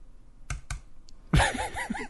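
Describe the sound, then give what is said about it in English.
Two hard clicks of a computer mouse double-clicking a link on a website, about a fifth of a second apart, followed by a short vocal sound. “I like how you beat the shit out of your mouse. I like how the double click isn't fast. It works better if I click it really hard. I'm double clicking a link on a website.”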